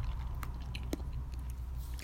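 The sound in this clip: Chewing food while eating onion: wet, soft mastication with a few sharp crunchy bites scattered through it, over a constant low background hum.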